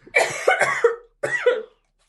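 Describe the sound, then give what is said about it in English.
Coughing from a person whose water went down the wrong way: two harsh bursts with a pause between. The first is longer and broken into several rough hacks, the second shorter and loud, with no talk over it. “I'm pretty glad I coughed there.”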